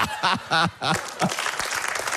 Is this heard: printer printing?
no